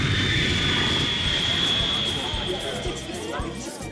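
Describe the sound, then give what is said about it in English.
A fixed-wing aircraft's engines roar as it nears landing at West Palm Beach: a steady, loud, continuous drone with a thin high whine running through it, easing slightly in level toward the end. “We've gone as far as we can. We'll be landing in West Palm Beach shortly.”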